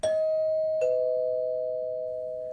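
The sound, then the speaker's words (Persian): A two-tone doorbell on an apartment door chimes twice, the second note lower than the first, then hums on in a long, slowly fading ring with no voices. “با تردید زنگ زدم”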